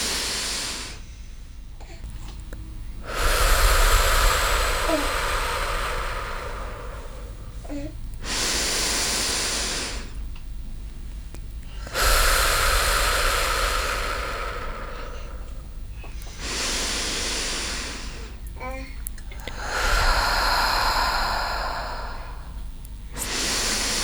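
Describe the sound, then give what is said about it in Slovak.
Slow, deep breaths drawn in through the nose and let out again, three long airy cycles, each a soft swelling rush of air rising and fading, heard close and alone without talk. “Takže 5 veľkých nádychov a výdychov si dáme teraz. Takže nádych nosom.”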